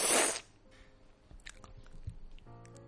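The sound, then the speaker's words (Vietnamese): Chewing on a rolled pho roll (phở cuốn) packed with fried shallots: a loud crunchy bite at the start, then soft, irregular wet chewing and squishing sounds. “Ăn hết cuộn phở đầu tiên, làm ngụm sữa ngô cho đỡ cay.”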